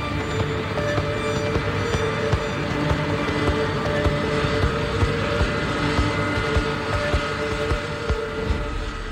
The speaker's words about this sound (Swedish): påbörjar en skarp sväng medan de ser hur KLM-planet vrålar emot dem